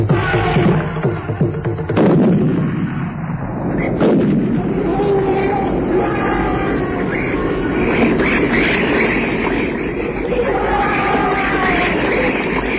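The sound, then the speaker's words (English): Heavy booming gunshots from a Rigby rifle while hunting a charging rogue bull, staged for an audio drama. A few loud blasts ring out early on, each followed by a long rumbling tail. “The bullet from Grant's Rigby dropped one bull, but the rogue only staggered.”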